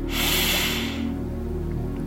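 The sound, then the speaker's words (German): A deep breath drawn in through the nose makes a breathy hiss that lasts about a second and then fades. A steady, low musical background plays underneath. “Ein zweites Mal. Tief einatmen.”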